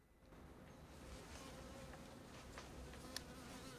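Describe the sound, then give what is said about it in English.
A bee buzzing near a breakfast table gives a steady, continuous droning hum, with a single brief click near the end. “A bee lands on the breakfast table.”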